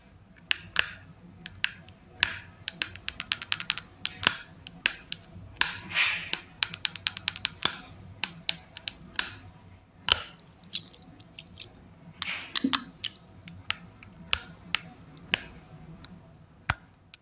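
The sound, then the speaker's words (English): Chewing while playing video games with headphones on: many faint, wet, irregular clicks and smacks, with a few sharper snapping taps scattered throughout. “So I was chewing and playing video games with headphones on.”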